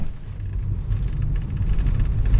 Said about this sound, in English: I'm now in the car with the guys, and we are driving through the beautiful green lush countryside of Bangladesh.